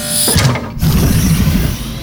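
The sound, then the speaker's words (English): Mechanical grinding and ratcheting of an elevator on Mars, a continuous whirring rumble with a brief dip and clunk partway through before the machinery keeps running. “I think we should just get in the elevator. Fine, but I don't like this. Everybody in. Stand clear.”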